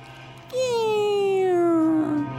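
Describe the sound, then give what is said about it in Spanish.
A dog found on the street whines in a single drawn-out tone that slides slowly down in pitch, over a low background hum. “Natacha, ¿tienes un perro ahí?”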